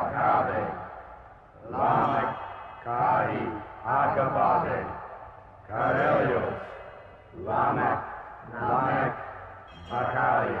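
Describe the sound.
A chanted invocation from a 1969 occult-themed song by an American band: a solemn voice intones strings of strange syllables in about eight rhythmic phrases separated by short pauses, with a slight echo.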